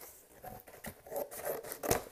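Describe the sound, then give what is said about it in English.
A cardboard box is cut slowly: a quiet series of scraping, crunching cutting strokes in an uneven rhythm, with the sharpest stroke near the end. “I am cutting this box. Just taking my time”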